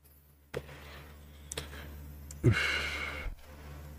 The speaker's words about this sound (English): Let me take a swig of my vapor.